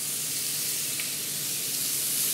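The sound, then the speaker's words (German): Steaks for tagliata di manzo sear in a hot pan, giving a continuous, even sizzle and spray-like hiss that stays fairly quiet and steady throughout. “Steaks für die Tagliata di Manzo, ein italienischer Klassiker.”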